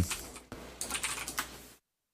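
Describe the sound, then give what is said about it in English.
Typing on a computer keyboard: quick, irregular clicks of keystrokes in short bursts, fairly faint, then stopping abruptly into silence. “My typing's jacked up right now, dude.”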